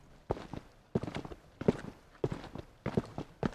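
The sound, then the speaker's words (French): Footsteps of people climbing a staircase of about a hundred steps back up to a funicular, six heavy, evenly spaced footfalls in a steady rhythm, with no voices. “Après avoir monté une centaine de marches, nous voilà de retour au funiculaire.”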